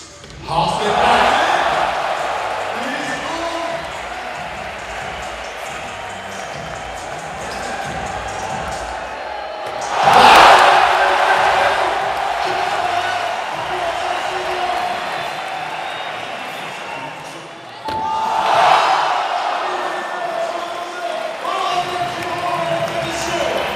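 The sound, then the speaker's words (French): Crowd cheering and whooping in a packed venue after Aurélien Giraud's first skateboarding run at a contest, a sustained roar that swells in louder surges, with voices talking over it. “Aurélien Giraud était encore plus chaud que le public, je vous laisse vivre l'ambiance à la fin de son premier run.”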